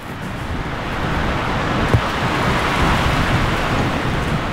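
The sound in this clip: Wind blowing at the seaside makes a steady, full rushing roar that holds constant throughout, with one brief bump partway through and no voices.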